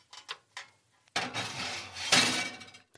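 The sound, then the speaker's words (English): Metal baking trays coated in goose fat go into an oven preheated to 200 degrees: a few short knocks, then a longer burst of metallic clattering and scraping with bright clinks. “Right, my two trays are coated. They are going in the oven, which has been preheated to 200 degrees.”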